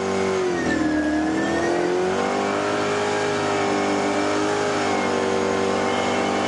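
A race car engine revs and accelerates continuously and loudly, its whining tone dipping in pitch and then holding a steady, strained pitch.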